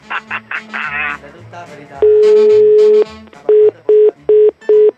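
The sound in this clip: A telephone busy tone sounds after the other party hangs up: a long steady tone, then four short, evenly spaced beeps. Talk comes just before it.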